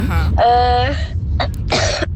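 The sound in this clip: A sneeze: a drawn-out voiced intake rising into a sharp, noisy burst, with a short puff in between, over a low background hum.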